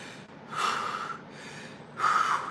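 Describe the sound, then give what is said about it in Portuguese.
Two forceful puffing exhales, a person blowing breath out hard as if tired. Each is a broad, airy rush of air, and the second is slightly stronger, with a short gap between them. “Sabe esse bufar, essa coisa de botar fôlego para fora?”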